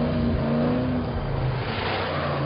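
A jeep engine revs hard as the accelerator is pressed while the vehicle stays stuck with its wheels spinning backwards, giving a loud, steady roar throughout with no voices.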